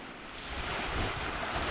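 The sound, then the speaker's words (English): Gentle waves lap against the shore of Ometepe Island in Lake Nicaragua, a soft, faint, continuous wash of water with no distinct breaks and no voices. “Waves lap languorously against the shore on Ometepe Island in the middle of Lake Nicaragua.”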